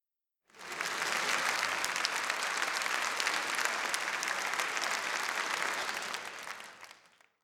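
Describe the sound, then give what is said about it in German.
Sustained applause from a crowd, a dense, even wash of many hands clapping that starts abruptly, holds steady at moderate loudness for about six seconds, then tapers off at the end. “Applaus.”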